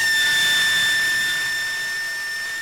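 A compressor-driven sound cannon aboard a large ship gives a loud, steady, piercing high tone with strong overtones over a rushing hiss, sustained throughout and easing slightly in level toward the end.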